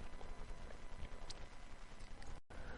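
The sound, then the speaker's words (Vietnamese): Thirty to forty mounted horses gallop across an open plain, escorting an eight-horse carriage; a dense, continuous clatter of hooves runs under a broad rushing noise and cuts out briefly near the end. “30-40 kỵ mã bảo hộ một chiếc kiệu xe 8 ngựa đang phóng băng băng trên đồng không mông quạnh.”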